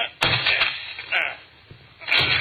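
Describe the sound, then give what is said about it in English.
Heavy thuds of a door being forced and broken down: three loud, booming blows spaced roughly a second apart, each a broad crash that fades into quieter rumble between strikes. “Come on, let's break down the door.”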